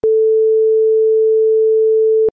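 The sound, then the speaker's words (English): A single long electronic beep, a steady pure mid-pitched tone lasting just over two seconds, loud and alone, switching on and off abruptly. “which was longer, the first two beeps together or the longer beep on its own? Here it is again.”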